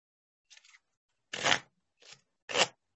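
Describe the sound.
Faint, crisp papery rustles of a deck of playing cards being handled and shuffled during a card trick. Four short bursts come one after another with brief silent gaps, and nothing else is heard.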